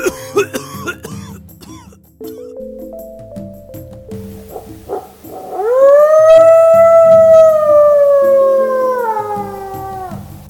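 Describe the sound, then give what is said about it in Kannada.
A barking deer's frightened, dog-like cry: a long, loud, wavering wail that holds steady and then trails off. It comes after several short, rough, cough-like calls. “ಬೊಗಳು ಹುಲ್ಲೆಯ ಅಳು ಹೆದರಿದ ನಾಯಿಯಂತೆ.”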